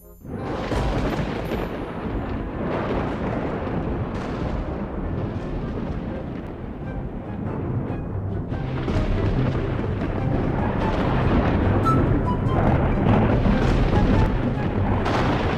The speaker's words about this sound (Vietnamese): Tiếng sấm sét đình tai nhức óc vang lên.